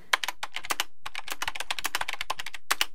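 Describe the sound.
Rapid typing on a computer keyboard while entering credit card details: many crisp key clicks in a brisk, fairly even rhythm with a brief pause, ending abruptly.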